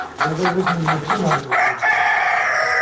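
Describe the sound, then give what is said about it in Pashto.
Hens and roosters in a house yard strewn with leaves and litter cluck in quick rhythmic pulses, then a rooster crows. The flock stays loud and busy throughout. “په دغه پاڼو او خاشو کې یو شمیر چرګې چرګان مشوکي وهي.”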